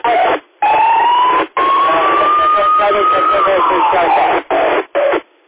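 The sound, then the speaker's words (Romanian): An ambulance siren wails through a thin, tinny radio channel, its tone slowly rising, holding, then falling. The signal cuts out briefly several times, and voices sound underneath. “Grijă că trece salvarea pe acolo”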